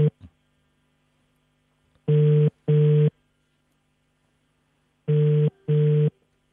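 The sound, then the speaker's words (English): Ringing tone of a telephone call being dialled: two pairs of short, even double rings separated by a quiet gap, loud and alone with no voices. “Can we dial Petunia up?”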